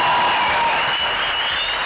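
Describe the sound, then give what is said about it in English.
Crowd booing, a dense, steady roar of many voices that holds at an even loudness for the full two seconds. “that must be her booing there.”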